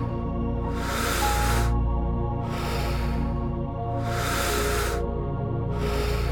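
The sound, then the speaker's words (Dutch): Slow, deep breathing from a person during a guided breathing exercise: three long, airy rushes of about a second each, with a fourth beginning at the end, over a steady, soft, sustained musical tone. “Adem in. En adem uit. In. Uit. In. Uit.”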